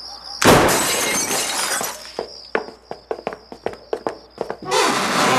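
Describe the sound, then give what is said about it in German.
Cellar window being broken open: a loud crash of shattering glass, then a run of many sharp, regular knocks and clatters, ending with another burst of noise. “Da, das Kellerfenster ist kaputt. Ja, das sehe ich, aber da kommen wir nicht rein. Los, aufbrechen!”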